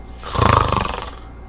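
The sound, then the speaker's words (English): A human voice imitates a snore with one drawn-out, rumbling, nasal inhale that swells and then fades over about a second. “Snore.”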